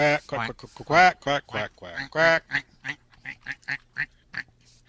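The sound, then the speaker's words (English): Duck-like quacking comes as a rapid series of many nasal, buzzy calls, loud at first and then fading into fainter, shorter ones. “What was that noise? Looks like a duck and walks like”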